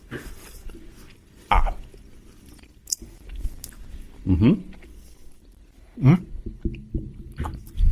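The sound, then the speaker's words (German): Someone chews a tough, chewy sweet while tasting it, with a few wet, squishy bites and smacking bursts spaced out over otherwise faint background. “Kosten wir mal. Ich lege es jetzt in meinen Mund ein, ja?”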